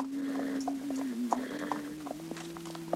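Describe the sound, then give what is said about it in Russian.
Horse hooves shuffle and clop lightly as a young soldier ties his horse to a metal bracket before an entrance, a few faint, uneven taps beneath a steady low droning tone. “Молодой солдат привязывает своего коня к металлической скобе перед входом.”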